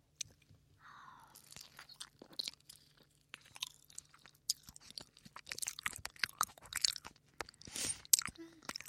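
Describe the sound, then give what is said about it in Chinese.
Someone eats very sweet durian, with many soft crunching and chewing mouth sounds in irregular bursts, faint and close, with no talking. “这个榴莲真的巨甜，太好吃”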